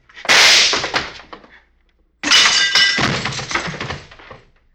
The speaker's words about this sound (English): You shot the back of Jesse's head off, Bob.